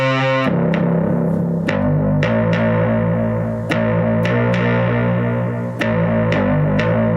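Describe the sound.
Distorted synth bass rings out in a gritty, sustained tone. A string of sharply struck notes shifts pitch over several seconds, played alone with no voices.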